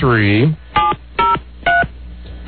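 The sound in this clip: Telephone keypad dialing tones: three short, steady electronic beeps spaced evenly apart, following a brief burst of a voice at the start.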